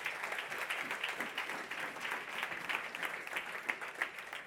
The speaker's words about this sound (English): Let's put our hands together and welcome them to give us a testimony.